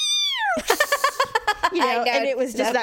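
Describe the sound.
Cats fighting late at night: a long falling wail, then a rapid run of pulsed, clipped cries, then drawn-out, wavering yowls. The calls are loud and harsh throughout.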